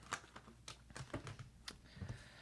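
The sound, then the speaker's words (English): Tarot cards being taken out for a reading produce a rapid series of faint clicks, taps and soft rustles in an irregular rhythm, with no speech. “Let me get a few cards out before we before we deal with this.”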